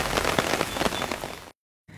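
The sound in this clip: Rain falls outdoors in a steady, dense hiss with fine pattering and crackling drops. It cuts out briefly near the end, then returns.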